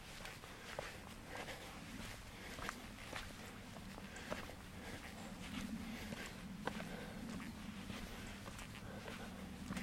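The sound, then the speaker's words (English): Footsteps of someone walking up through a Scots pine plantation in fine weather: a few soft, uneven steps over steady, even background noise. “Just walking up through the plantation.”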